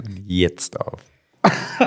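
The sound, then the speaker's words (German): A person coughs into the microphone just as a recording begins: a few harsh, loud bursts mixed with voiced sounds, a short silent pause, then another sharp burst. “Ich habe mir reingehustet.”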